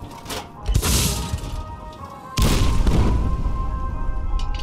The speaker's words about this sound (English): Lost Paws Jr., handling the Fat Man tactical nuclear catapult